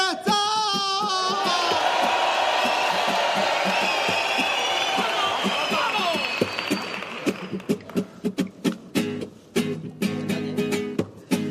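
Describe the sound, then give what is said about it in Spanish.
Loud crowd cheering, whoops and applause from an audience voting for the winner of a rap contest, a dense roar that thins into sharp, spaced rhythmic hits near the end. “¡Que aplaudan los que crean que el ganador debe ser el Anuel del Puerto 3! ¡Y que aplaudan los que crean que ha ganado el”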